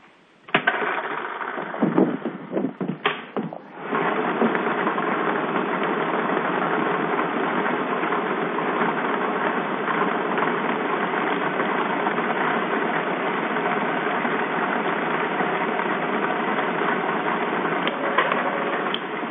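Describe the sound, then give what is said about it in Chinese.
A lottery drawing machine runs at a live lottery draw. It gives off a steady whirring roar, with a few brief knocks and bursts in the first seconds before it settles into an even, unbroken drone. “请拿好您们手中的彩票，马上为您启动摇奖机。”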